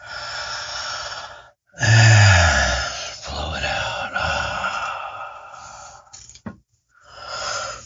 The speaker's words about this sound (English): And we just did the first one. That is breath.